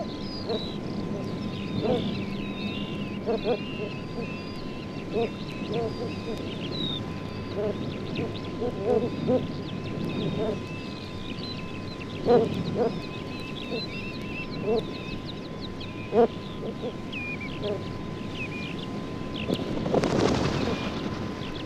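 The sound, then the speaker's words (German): A female ruff calling in flight over her endangered chicks on the coast: sparse, short, faint calls scattered over steady wind noise, with a few sharper calls standing out near the end. “Zum Schluss ein Kampfläuferweibchen, das seine gefährdeten Jungen überfliegt.”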